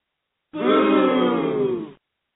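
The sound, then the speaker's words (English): A crowd booing in disapproval: one sustained, low vocal boo lasting about a second and a half, loud and unbroken, with silence before and after. “Boo! Wow, come on. I don't like that audience reaction at all. I do not like it at all.”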